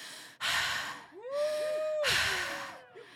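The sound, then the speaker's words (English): A person gasps in three loud, breathy bursts, with a wavering voiced tone that swells and dips around them before trailing off. “The gasping is necessary and also sexy.”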